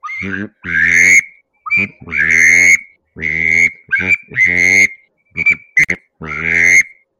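A hunting duck call imitates a drake gadwall, played with varied back pressure. It gives a loud series of reedy, nasal notes, some drawn out and some clipped short, with brief gaps between them.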